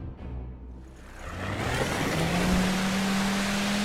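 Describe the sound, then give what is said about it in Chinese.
An assault boat's motor drones on a lake. A rough engine rumble mixes with broad rushing water noise, and a steady low hum appears partway through. “引擎的马达声渐渐隐去，冲锋舟停在漾着些许微光的湖心之上，随着湖水的动向原地轻晃，”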